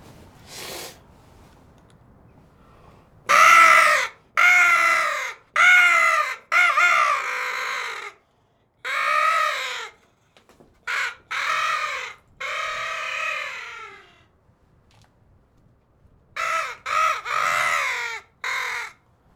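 Crows caw in many loud, harsh calls that come in irregular bursts separated by quiet pauses, with no talking.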